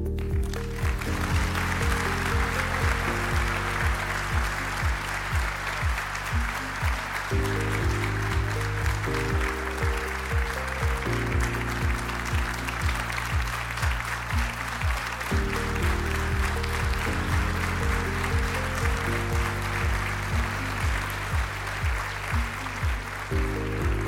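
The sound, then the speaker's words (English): Standing ovation applause after a keynote speech at a regional chamber of commerce awards event, a continuous hiss of clapping lasting about 24 seconds beneath loud music playing sustained chords. “Not bad, Michael. Standing ovation. Even Michael Jordan gets that standing ovation, right?”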